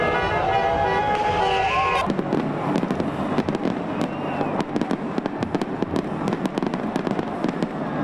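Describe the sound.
Fireworks and firecrackers burst during a street celebration of a German team's win, with many rapid, sharp cracks and pops piling up over a continuous roar of background noise.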